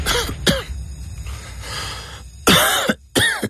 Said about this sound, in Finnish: Hei, älä suotta köhi.